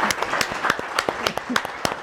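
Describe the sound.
Audience applause for a guest at a talk event, many sharp individual hand claps that land irregularly, at a moderate level rather than a dense roar.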